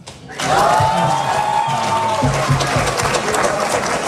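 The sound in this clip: A crowd of high school students in grades 9 to 12 fills the rows of a hall, and their cheering and applause rise suddenly into a loud, sustained, dense roar.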